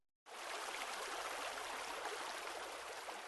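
Water flowing past a riverbank: after a brief moment of silence, a steady, full rushing hiss of moving water sets in and holds evenly, with faint gurgles and no voices.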